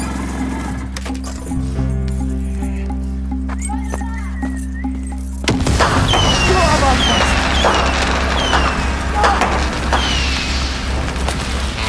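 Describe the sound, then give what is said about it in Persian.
A sudden loud boom of a house blowing up from a homemade grenade built for Chaharshanbe Suri, breaking in midway after a quieter tonal stretch and leaving a sustained roaring, crackling wash. “دایی محسن راست میگفت، ترکوند. اما خونه یا ترکوند که داشت توش واسه چهارشنبه سوری نارنجک درست میکرد.”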